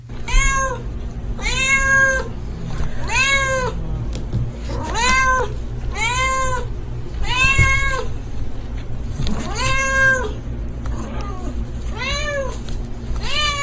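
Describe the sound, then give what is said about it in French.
A cat meows for food, giving many repeated, drawn-out, high meows in a steady rhythm over a constant low background hum, with no talking. “ton chat vient te voir pour en avoir aussi et qu'il te fait son petit miaulement pour te dire « Et moi ?»”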